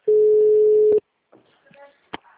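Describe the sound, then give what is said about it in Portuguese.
Telephone tone after a dropped call, a single loud, steady beep lasting about a second, then silence and a few faint, brief sounds. “é o Samuel, a ligação caiu”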